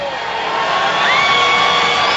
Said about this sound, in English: Big crowd on its feet.